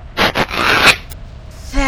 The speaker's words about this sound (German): und jetzt noch Rüstung zerreißen